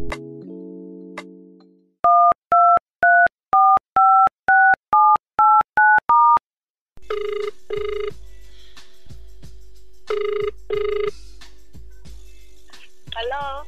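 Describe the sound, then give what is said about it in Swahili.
A telephone's steady dial tone gives way to a rapid series of keypad touch-tone beeps of differing pitches as a number is dialed for a call, followed by a ringback tone with repeated ring bursts. “Sasa ngoja nimpigie simu alafu tuweze kupiga mastori kibao.”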